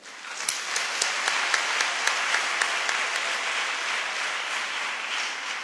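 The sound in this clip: Church audience applauding: a sustained wash of clapping with a regular beat of louder claps running through it, easing off slightly toward the end.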